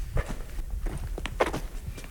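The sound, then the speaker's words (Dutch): Footsteps of people walking along a greenhouse aisle between plants: many steady, muffled steps with light thuds, and no talk. “Laten we nog even verder lopen.”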